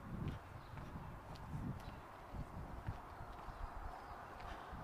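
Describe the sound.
Footsteps of someone walking along a street of terrace houses: a steady run of hard, irregular steps over continuous background noise.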